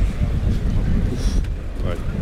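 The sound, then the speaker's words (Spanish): Strong wind at a bullring buffets the microphone with a steady, loud, low rumbling roar that barely lets up across the whole moment. “Cuidado, que hace mucho viento.”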